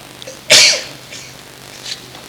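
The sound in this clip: A single sharp sneeze bursts out during a spoken Arabic religious lecture, recorded on old cassette tape. It is a short loud blast of breathy noise followed by quiet hiss, with a couple of faint sounds afterward.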